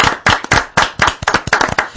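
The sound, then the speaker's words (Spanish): Studio applause welcoming a guest: a dense burst of many hands clapping, loud and steady for about two seconds with uneven surges, no voices over it. “Un aplauso inicial para Alberto Belmonte”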